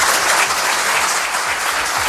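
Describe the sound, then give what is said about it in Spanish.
Sustained applause from an audience for the president of the Supreme Court, a loud, continuous wash of clapping with no breaks throughout. “Un poco más cálido fue el aplauso que recibió la presidenta del Supremo.”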